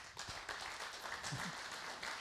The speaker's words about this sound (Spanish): Y pido un aplauso para Ricardo.